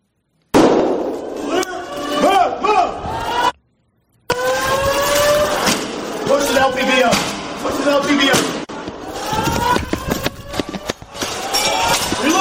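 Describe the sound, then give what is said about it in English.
Gunshots fired by a police officer in a played video come as a few sharp, abrupt bangs scattered among loud voices talking, with a brief drop to silence partway through. “The officer just fired first shot. Boom, boom, drops, okay? They drop.”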